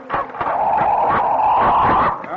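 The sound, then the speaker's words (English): A stray dog that has trailed a lieutenant all day whines in a steady, high-pitched tone for about two seconds. Short yips and bark-like bursts break through the whine, and no talk is heard. “Where'd you get the dog”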